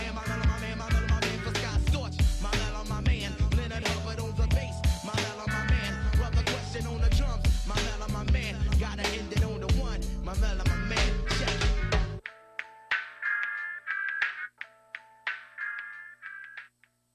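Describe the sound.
A 1994 hip-hop track played with live instrumentation, with a dense, steady beat and full band sound that suddenly thins out near the end into sparse, plucked notes.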